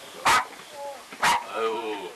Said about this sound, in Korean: 왜 이렇게 짖어?